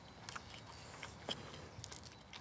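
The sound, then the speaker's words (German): Biting and chewing of a Weisswurst sausage, served as a first course from the grill. Soft, faint crunchy bites and wet chewing clicks recur irregularly several times. “Gleich mal die Weißwurst probieren.”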